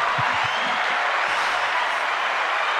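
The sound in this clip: Applause sound effect played in a studio, a uniform, dense burst of crowd clapping running the whole clip, with a few low thumps near the start.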